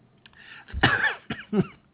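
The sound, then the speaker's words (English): A person gives a few short, harsh coughs and throat-clearing bursts, uneven in spacing and fairly loud, with no other sound. “Oh, excuse me. I found something soothing for my cough.”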